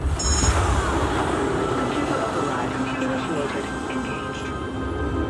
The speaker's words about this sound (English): Pilot, engage second stage rocket now.